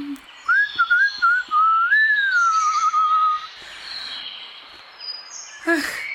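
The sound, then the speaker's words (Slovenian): Birds singing: a clear, warbling whistled phrase that rises and falls in pitch for a few seconds, with fainter higher chirps scattered around it. “Raje zaprimo oči in poslušajmo predizborske napeve mojih prijateljic ptic v ozadju.”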